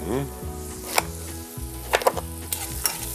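Chicken sizzles as it fries in a pan of half oil and half butter, a steady crackling hiss with a few sharper pops and clatters.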